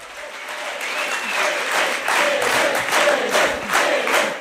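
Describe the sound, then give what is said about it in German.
Frenetic cheering and applause greet Berlin election winner Elif Eralp at the Left party's special conference: dense, sustained clapping mixed with crowd voices, swelling slightly and pulsing in loose waves throughout. “Frenetisch wird Elif Eralp, die Siegerin der Berlin-Wahl, auf dem Sonderparteitag der Linken begrüßt”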